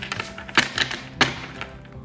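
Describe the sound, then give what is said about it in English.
A table shakes and knocks during a card reading, giving a few irregular, fairly faint hollow wooden thunks and taps. “y'all might have heard the table shaking”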